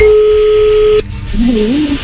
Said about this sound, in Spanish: A ver, ya entra ahí la llamada, no haga ruido.